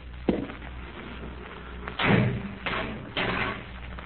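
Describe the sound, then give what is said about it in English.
Heavy bolts and solid oak bars on a door being worked, giving a few dull clunks and thuds spread over four seconds, with no talk over them. “Heavy bolts on the outside, sir. Solid oak bars overall. You see how quick you can operate them?”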